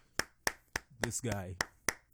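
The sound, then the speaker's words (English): Hand claps from a single pair of hands ring out slowly and evenly, sharp and distinct, with a short stretch of talking between them. “A round of applause for Adam Driver.”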